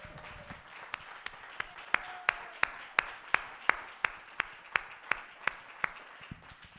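Rhythmic clapping from a church audience: many sharp, evenly spaced claps on a steady beat, moderately loud over a soft background murmur.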